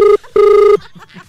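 A telephone rings with two warbling ring bursts as radio hosts call a restaurant to order chicken, followed by faint low sounds.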